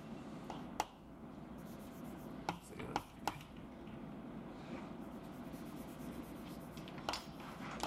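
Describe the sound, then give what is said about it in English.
Faint scratching of writing on a board as a calculation is worked out. Soft, continuous rubbing strokes are broken by a few sharper taps, all at low volume. “I'm going to write it this way.”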